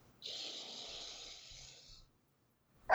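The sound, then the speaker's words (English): One long, deep breath during a tapping self-acceptance exercise, a steady breathy hiss lasting nearly two seconds, followed after a pause by a brief, sharp sound. “Big deep breath again.”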